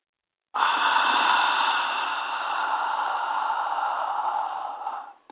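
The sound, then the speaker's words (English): A single long inhalation through the right nostril starts abruptly as a steady, airy, nasal hiss that lasts about five seconds before tapering off at the end. “Breathe in through the right. Hold it.”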